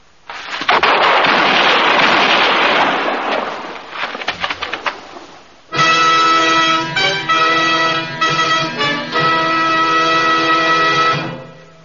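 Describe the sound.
Gunfire during a Western showdown between a marshal and an outlaw: a loud, noisy burst of shots and sharp cracks, followed by a sustained tonal, horn-like sound with brief dips.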